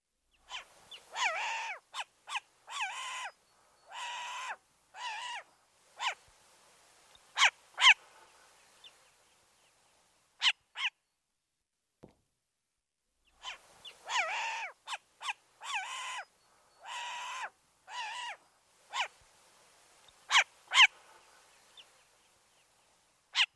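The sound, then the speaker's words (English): Short-eared owl calls: many harsh, raspy barking notes delivered in two separate bursts with a quiet gap between them, fairly faint against a silent background with no voices. “Short-eared owl.”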